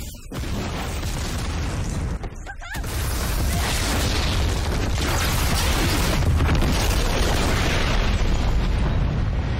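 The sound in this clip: A giant robot explodes in a video game trailer: a loud, dense, roaring boom that briefly dips and then swells into a sustained, heavy rumble lasting several seconds.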